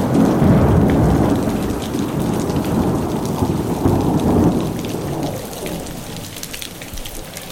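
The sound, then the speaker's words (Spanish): Heavy rain pours down in a storm, a dense, continuous roar with a low rumble beneath, easing slightly toward the end. “Y cuando se acabó la luz, empezó a llover fuerte, fuerte, fuerte, fuerte.”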